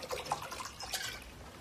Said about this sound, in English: We're going to start out with some filtered water from our favorite source, the little vegetation area there.